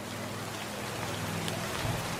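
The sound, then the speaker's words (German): Steady rain falls in a forest, a soft, even hiss of drops on surfaces. It stays constant throughout at low volume, with no voices. “und der Wald antwortet mit dem Regen.”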